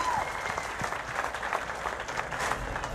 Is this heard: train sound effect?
no